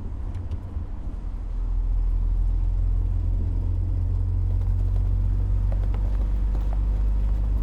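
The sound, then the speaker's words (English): A car slows as it takes a tight hairpin turn. Its engine gives a steady, deep rumble with a whirring hiss that swells slightly after the first couple of seconds and then holds level. “and the car slows as it makes the turn”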